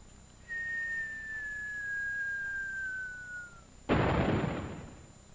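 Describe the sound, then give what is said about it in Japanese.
A winter firework whistles in a long, thin, slightly falling tone, then bursts with a sharp, crackling bang that slowly fades. “おつなもんでしょ冬の花火ってのも。”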